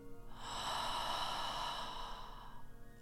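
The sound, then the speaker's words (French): A deep breath exhaled through the mouth during a guided meditation: one long, soft, breathy whoosh lasting about two seconds, rising gently and fading out, with no voices. “et commencez à respirer profondément. Inspirez et soufflez par la bouche.”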